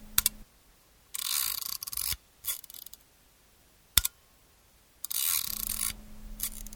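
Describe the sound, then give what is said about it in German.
Mechanical whirring and clicking from a camera mechanism: a few clicks, then a long buzzing whir, a short burst, a single sharp click and a second long whir, crisp and bright with no talk. “Wer weiß, was das ist? Eine Kamera.”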